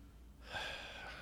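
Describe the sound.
One heavy, breathy intake of air, like a gasp, rises out of near silence and stays airy and sustained to the end. No one talks.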